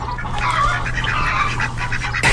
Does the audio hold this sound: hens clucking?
yes